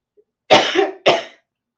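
Two sharp coughs from a person with allergies, alone in silence: the first longer, trailing into a raspy throat-clearing sound, the second shorter and abrupt.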